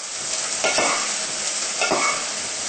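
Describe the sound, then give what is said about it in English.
Soy textured protein sizzles steadily as it fries in a pan, with two distinct scraping stirs cutting through the continuous hiss. “soy texture protein in there. Yeah. And stir it well.”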